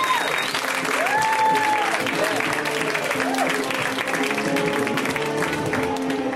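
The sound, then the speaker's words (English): Steady, dense audience applause as comedian Mike Lawrence is welcomed to the stage, a continuous wash of clapping with voices and cheers rising over it throughout. “So guys, let's hear it right now from Mr. Mike Lawrence. Give it up for Mike.”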